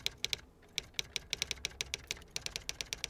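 Fingers type on a computer keyboard, a quiet run of many crisp key clicks in an uneven rhythm with short pauses between bursts.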